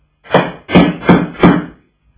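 Four heavy knocks land on a door in a radio drama. They are loud, evenly spaced and alone, and silence follows them.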